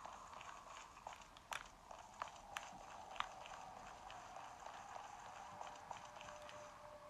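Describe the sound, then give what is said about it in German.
Quiet footsteps in the video game Minecraft as a character walks along a corridor, many soft irregular steps with a few sharper clicks over a faint steady hiss. “also ich laufe mal durch den Gang.”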